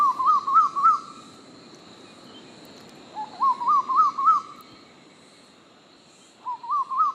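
Call of a summer migrant bird arriving in Australia from tropical islands to the north: three separate series of repeated whistled notes, each climbing in pitch, with quiet gaps between them.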